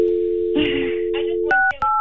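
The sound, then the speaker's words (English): A telephone number is dialed on a phone line. A steady, low dial tone holds for over a second, then breaks into a few short touch-tone beeps of paired pitches. “Yes, you should call Sarah. Okay, let me do that. Let me put you on hold here. Let me lock you in and see if I get a hold of Sarah.”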